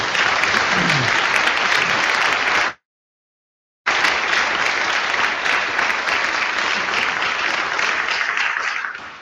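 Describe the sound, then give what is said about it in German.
Audience applause at a livestreamed event thanking the production crew: dense, sustained clapping from a crowd, loud and steady, broken once by a short cut of silence before continuing and slowly thinning toward the end. “Tolle Arbeit und das ist ein Applaus wert.”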